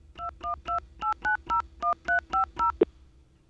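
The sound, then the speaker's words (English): Touch-tone telephone dialing of a number: ten short, clear two-note beeps in a steady rhythm, followed by a single sharp click. “Okay, so I dial 1212.”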